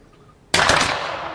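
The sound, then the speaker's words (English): A line of soldiers fires one massed volley together: a sudden, loud crack that swells into a sustained roar and slowly decays. “And they all fire together after two beats of slow time.”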